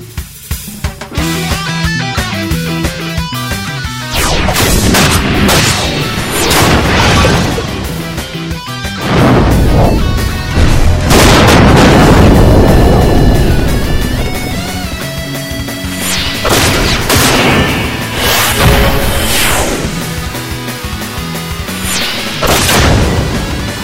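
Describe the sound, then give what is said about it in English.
Video game weapon skill sound effects strung together as a 21-shot salute: many loud crashes, booms and thwacking impacts in rapid succession, dense and continuous over sustained ringing tones. “Limit Break Radio wants to send Kyutaru a special 21 weapon skills salute from Zero.”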